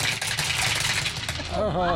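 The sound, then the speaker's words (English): Dice clatter down a dice tower during a tabletop roleplaying game session, a dense run of quick rattling clicks mixed with loud voices talking over the sound. “The dice tower makes it so much more threatening.”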